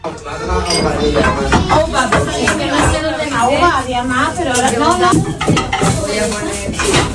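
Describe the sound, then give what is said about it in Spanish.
Busy kitchen of a family with twelve children: many voices talk over one another amid clinking dishes, cutlery and pots, a dense, continuous clatter. “así es como suena una cocina con 12 hijos. Una cocina en la que no caben todos”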